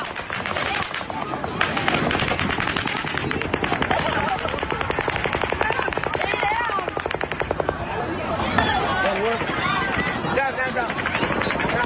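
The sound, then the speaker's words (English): A volley of more than fifty gunshots: rapid, loud reports fired in close succession, merging into a dense, crackling barrage that continues for the whole clip. “Now, this is the first volley. Over 50 shots, easy. Second volley.”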